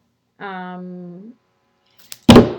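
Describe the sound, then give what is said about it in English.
A dog knocking over a microphone makes a sharp click, then a loud brief thump and rattle at the end, following a drawn-out voiced sound from a person. “that's my dog knocking over my microphone, which is pretty standard.”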